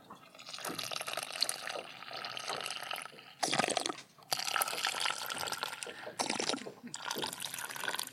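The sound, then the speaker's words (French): Water is poured into a Jetboil stove pot around a preserving jar set inside it. The hissing, splashing stream runs in several bursts separated by brief pauses. “Et on est parti pour euh, voilà, un petit remplissage d'eau tout autour.”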